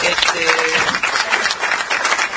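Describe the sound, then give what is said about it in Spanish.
Audience applause for a performer who has just sung, a dense, steady wash of clapping that stays fairly loud and even from start to finish without a break. “necesitamos aplauso para Nataluti, que la banquen.”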